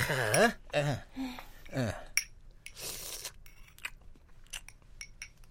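Crunching and chewing of food being eaten, with a few brief vocal sounds at the start followed by irregular, fairly faint bites and chews.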